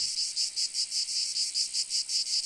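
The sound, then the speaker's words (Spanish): A cicada singing in a city park: a shrill, steady high buzz chopped into rapid, evenly spaced pulses, roughly five per second, with nothing else audible around it. “De repente, escuchó a su tía la cigarra cantar, y hacia allí que se dirigió.”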